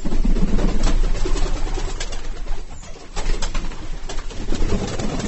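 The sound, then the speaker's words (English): Turbit fancy pigeons coo in soft, low, rolling calls that keep overlapping, a continuous murmur with no voices. “This particular bird, Darwin would have known these birds as turbots.”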